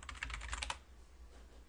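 Rapid keystrokes on a computer keyboard, a quick run of faint clicking taps lasting under a second before stopping abruptly.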